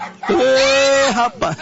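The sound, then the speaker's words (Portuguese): A parrot imitates a cattle herder's call. A loud, sustained tonal cry rises at its onset, holds steady and drops at the end, and a shorter second burst of the same call follows. “Coloca o papagaio boiadeiro pra mim.”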